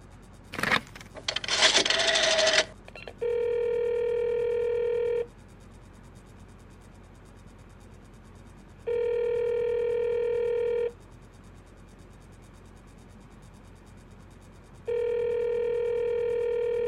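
A telephone handset is picked up with a short burst of clattering and rubbing, then three long, steady buzzing tones sound at even intervals as a call to the operator is placed.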